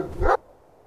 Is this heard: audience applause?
no

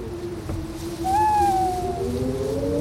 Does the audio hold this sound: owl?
yes

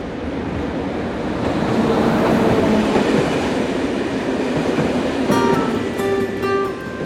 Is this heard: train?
yes

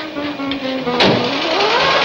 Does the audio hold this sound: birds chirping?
no

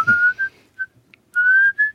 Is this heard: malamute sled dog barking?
no

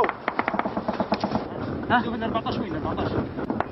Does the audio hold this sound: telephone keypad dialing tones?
no

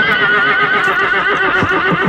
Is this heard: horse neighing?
yes

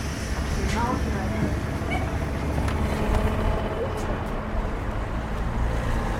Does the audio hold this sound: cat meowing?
no

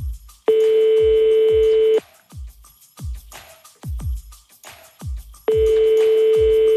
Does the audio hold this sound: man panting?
no

